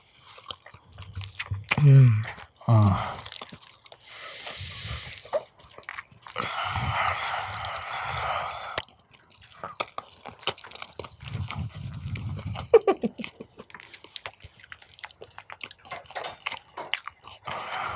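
Someone chews and bites into cold brisket: irregular wet, crunchy mouth sounds and smacks, with a louder cluster early on and quieter chewing bursts after.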